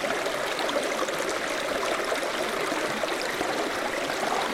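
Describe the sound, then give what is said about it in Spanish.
A small stream flowing into the sea at its mouth on a coastline, a steady, even rush of trickling and splashing water that continues unbroken throughout, with no voices. “tras explorar la costa, encontramos la desembocadura de un riachuelo.”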